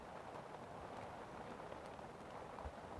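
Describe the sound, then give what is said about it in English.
Rain falls on the roof of a shed as a faint, steady, even hiss of patter, with no single drops standing out. “the sound of rain on the roof. I'm in my shed”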